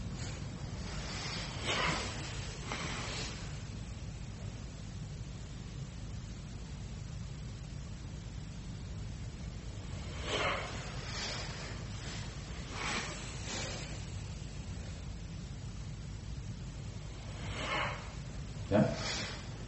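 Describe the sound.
Alternate nostril breathing, inhaling and exhaling: soft, airy nasal breaths come as a few brief, faint bursts spread across long quiet stretches.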